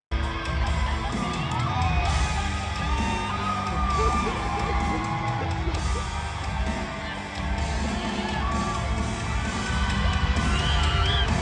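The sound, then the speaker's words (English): Audience cheering wildly at a City Escape game presentation, a dense roar of crowd voices with shouts, yells and high whoops sustained loudly throughout. “Like, people are going crazy in the audience here. Come on, dude. Listen to this.”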